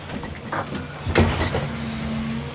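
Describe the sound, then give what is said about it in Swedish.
An excavator digs into the wall of a trench with a continuous low engine rumble and a heavier scraping thud near the middle, then settles back into a steady drone. “Grävmaskinen började arbeta sig in i schaktets vägg.”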